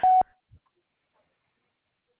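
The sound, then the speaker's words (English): A voicemail beep sounds once at the start: a short, loud, steady mid-pitched tone that stops abruptly, followed by near silence with only a couple of faint small noises. “there was a beep in the voicemail”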